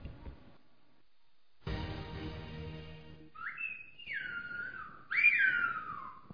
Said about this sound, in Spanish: Cuando no había teléfonos ni carreteras, este sonido les permitía a los habitantes de La Gomera comunicarse a través de valles y montañas. ¿Dónde están hoy los silbadores? Aquí, en una de las escuelas de esta isla canaria donde los niños aprenden silbo